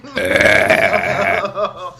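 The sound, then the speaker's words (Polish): A long, loud, voiced burp let out straight into a microphone holds steady for over a second, then trails off into a few softer guttural sounds, with no talking. “w ogóle beknąć tak na dzień dobry do mikrofonu.”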